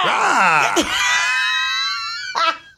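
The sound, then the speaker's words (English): A voice imitates a baseball umpire's call with a loud, drawn-out yell that slides in pitch and then holds a steady, strained high tone for about two seconds before breaking off. “Did you make that baseball umpire noise?”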